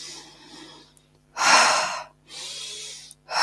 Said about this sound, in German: Schau mal, ob du noch intensiver einatmen kannst.